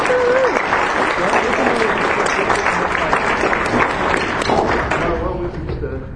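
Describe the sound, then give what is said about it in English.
An audience in Boston breaks into sustained, dense applause for someone invited on stage at a live show, the clapping steady throughout and easing slightly at the end. “let's have a big hand”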